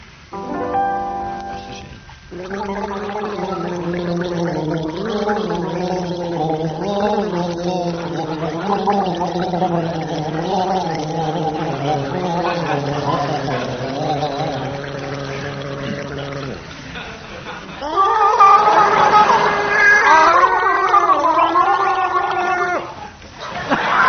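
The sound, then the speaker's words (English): Two people gargling before a studio audience: a long, wavering, pitched bubbling drone with voice-like tones, followed by a short pause and a brighter, higher gargle near the end. “will begin gargling as soon as the studio audience have donned their waterproof clothing”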